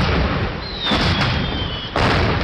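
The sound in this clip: Bottle rocket fireworks at a Fourth of July celebration: a thin, sustained whistle glides slightly downward over dense, continuous crackling and rumbling noise that stays loud throughout.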